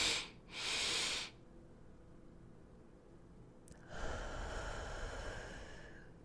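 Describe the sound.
Faint, airy breaths during a guided breathing exercise: a couple of short puffs, then a longer, soft deep exhale that trails off gradually, with no talking over it.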